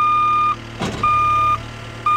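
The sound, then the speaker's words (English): A small skid steer loader clearing the debris of a destroyed house in Alabama gives reversing beeps: three steady, high, evenly spaced tones about a second apart over a low engine hum, with a brief burst of clatter between the first two. “This afternoon, a small skid steer loader was picking up what was left of their house, now strewn across their front yard.”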